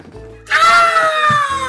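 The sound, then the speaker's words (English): A terrible scream rings out alone: one loud, sustained, high-pitched cry whose pitch sinks gradually as it is held. “a terrible scream. Oh no.”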